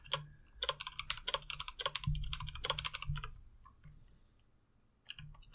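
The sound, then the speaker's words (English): Fairly quiet typing on a computer keyboard, with quick bursts of clicking keystrokes, a short lull, then a few more taps. “I just realized that even though I muted Discord to type because I am courteous to y'all, that's still going to pick up on the recording because I keep forgetting that it's not actually a hardware mute.”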